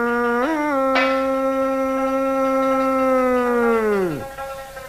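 A wolf spirit's howl in a ritual dharma-ceremony scene: one long, loud howl that lifts slightly early on, holds a steady pitch for several seconds, then sweeps sharply downward as it fades out.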